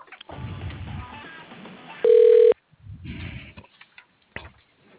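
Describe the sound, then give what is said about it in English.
An unanswered telephone call being sent to voicemail: a single steady line tone of about half a second rises out of muffled, band-limited phone-line sounds, followed by scattered faint clicks. “He's not picking up. I sent you to his voicemail.”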